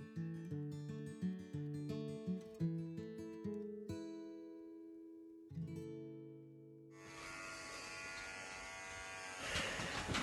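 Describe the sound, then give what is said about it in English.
An electric shaver buzzes loudly and steadily during a charity head shave. A few plucked musical notes play before the harsh, continuous drone starts partway through. “Oh dear me, that's the big shave done, folks, so thank you very much for your donations.”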